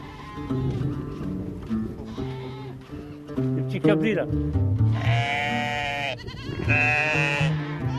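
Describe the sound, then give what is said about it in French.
A herd of sheep and goats at the foot of dunes bleats in several wavering, overlapping calls. A person talks over them throughout. “au pied des dunes, on vient de tomber nez à nez avec un troupeau de cabris. Voilà. Tout autour de nous. Des moutons et des chèvres.”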